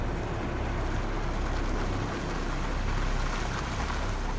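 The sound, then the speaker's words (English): A red Jeep drives up a long, winding driveway, giving a steady, broad rumble of engine and tyre noise that holds at an even level throughout, with no voices. “The red Jeep pulls up the long winding driveway and parks next to Daya's car.”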